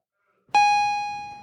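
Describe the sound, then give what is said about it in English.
A single bell tone strikes once, then rings out bright and clear at a steady pitch with a long, slowly fading sustain. No talk is heard. “And the bell rang and Janine left.”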